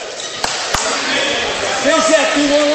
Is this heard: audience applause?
no